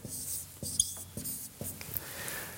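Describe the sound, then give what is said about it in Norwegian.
Chalk scratches across a blackboard in a series of quiet, dry strokes roughly every half second, with faint rubbing between them and no voices. “Jeg er ikke så veldig god å skrive på tavla”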